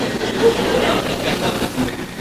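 A train passes with a steady, moderately loud rumbling clatter of wheels on rails, broken by a couple of brief faint squealing tones.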